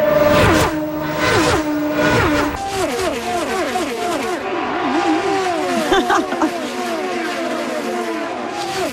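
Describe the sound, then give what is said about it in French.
Racing cars speed past during an auto race north of Toronto, engines roaring loud and continuous, their pitch sweeping downward again and again as car after car passes. “Mais qu'est-ce? C'est la course automobile qui s'en vient dans la grande région de Toronto, à Markham”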